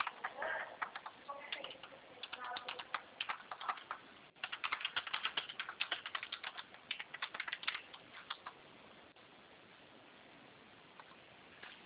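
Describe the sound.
Typing on a computer keyboard while entering a bank's name: many quick, faint clicking keystrokes in uneven bursts. They grow denser in the middle, then thin out toward the end.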